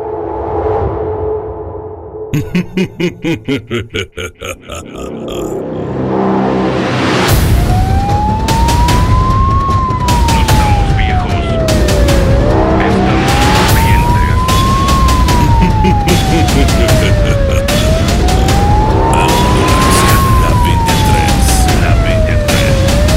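An ambulance siren sounds loud: a burst of rapid pulsing yelps, then a slow, steady wail that rises and falls in long repeated sweeps over a deep rumbling background.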